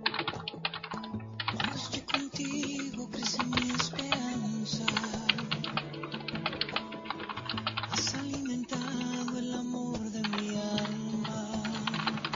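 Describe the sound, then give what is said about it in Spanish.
Typing on a computer keyboard: a steady stream of many quick, light key clicks at an even pace, continuing throughout at a moderate level. “de repente llegaron acá y escuché el tecleo.”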